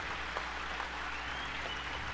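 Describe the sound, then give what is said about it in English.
An audience applauds jazz students from a school band program, a steady, fairly soft patter of many hands clapping at an even level from start to finish. “Before we go any further, I just want a huge round of applause for those students I just played with in Jazz 1 and 2.”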